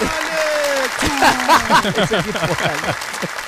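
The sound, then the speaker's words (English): A studio audience on a football talk show applauds and cheers to welcome a guest. Steady clapping is mixed with loud whoops and shouting voices that rise and fall throughout. “Ladies and gentlemen, put your hands together for the Pretoria gunslinger”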